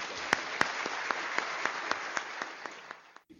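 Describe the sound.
Audience applause at Westminster Chapel welcoming a visiting bishop: a dense wash of clapping with several sharper claps standing out, tapering off toward the end.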